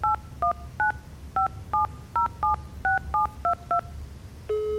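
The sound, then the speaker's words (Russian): A telephone number is dialed on a touch-tone keypad: 11 short, crisp dual-tone beeps in an uneven, quick rhythm, followed by a steady, sustained line tone. “Попробую позвонить ему.”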